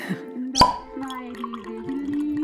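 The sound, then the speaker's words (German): A wine bottle is uncorked with a single sharp, bright pop, followed by faint ringing tones and soft clinks. “Ich hab nur ein paar Fläschle Wein. Da mach ich jetzt eins auf.”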